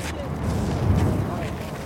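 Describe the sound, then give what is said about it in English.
Fire spun by a fire performer whooshing past, a low, breathy roaring rush that swells toward the middle and then eases off, with no clear separate strikes. “Fire definitely adds a completely different element in terms of just the sound and when it's whizzing by your ear.”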